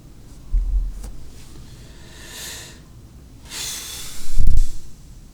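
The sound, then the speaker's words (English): Heavy breathing straight into a microphone, with a few airy rushes of breath and two loud, low, blunt puffs of air blasting the mic. “I shouldn't breathe into the mic like that.”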